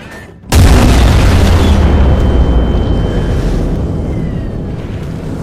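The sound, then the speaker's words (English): A single thunderous boom from 18-inch naval guns firing at aircraft from a warship's deck, a sudden concussive blast that fills the air and then rolls off in a long, slowly fading rumble. “Old anti-air gunner Sadaki Asano flinches at the earth-shattering boom of the 18-inch guns. There was just no getting used to that kind of noise. Each eruption shatters the air with concussive force”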